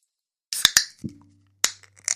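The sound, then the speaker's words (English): Can of Modelo beer cracked open: a few sharp metallic clicks and snaps in quick succession, fairly loud and with no talk. “We're going to be drinking some Modelo. I think Modelo could stay down. Right? Let's crack it open.”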